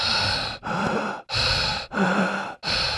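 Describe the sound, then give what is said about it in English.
Heavy breathing from someone out of breath: a steady series of loud, breathy inhales and exhales, each separated by a short pause, with no talking. “I know it might sound like I'm out of breath, but I'm simply pre-oxygenating my blood for our conversation.”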